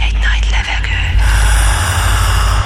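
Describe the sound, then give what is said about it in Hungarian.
A deep breath drawn in, loud and breathy, stretching over about two seconds as a rushing sound of air over a low rumble. “Felkészültél. Védj egy nagy levegőt.”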